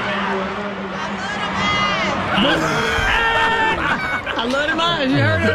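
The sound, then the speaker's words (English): Studio audience cheering and screaming at a cast announcement, a continuous loud mass of excited voices with high squeals, shouts and laughter overlapping and staying sustained throughout. “And listen to the audience, though. They wouldn't stop. This went on for about a minute or two.”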